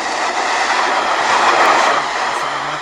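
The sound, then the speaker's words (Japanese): An electric train passes a railway level crossing with a steady, loud rolling rumble and rushing rail noise throughout, and no voices. “これちなみに第一茶園踏切 の、 あの電車が通ろうと、”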